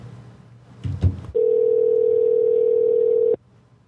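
A steady telephone tone on a call sounds as one long, even mid-pitched note lasting about two seconds and ending abruptly. A couple of brief noisy bumps come just before it.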